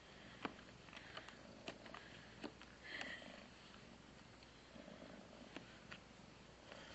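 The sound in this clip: A cat purrs in a steady, continuous low rumble that holds at an even level throughout, with a few faint brief clicks over it and no voices.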